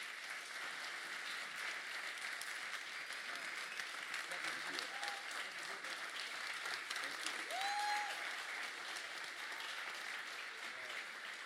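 An audience applauds to welcome a pastor: steady, dense clapping from many hands holds at an even level for the full length, with a slight swell near the end.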